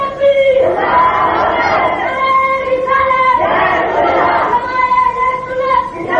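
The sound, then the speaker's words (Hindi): A crowd at a religious gathering chants slogans in unison. The loud, rhythmic phrases are shouted and repeated over the background hubbub of many voices. “ये जो नारे गूंज रहे हैं ये भी नबी का फैजान है”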